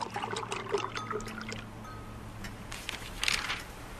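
Just-boiled water is poured over 22 g of ground coffee as a soft, steady trickle. A brief, brighter splash of flow comes near the end.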